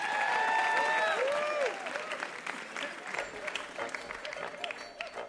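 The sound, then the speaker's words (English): Studio audience applause for quiz show contestants, a loud burst of dense clapping with crowd noise that eases slightly after the first couple of seconds and carries on to the end. “Give them a hand, our contestants.”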